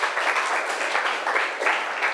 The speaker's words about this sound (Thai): ปรบมือให้กลุ่ม2ค่ะ